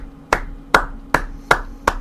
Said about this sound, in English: I'll give you an applause there for that.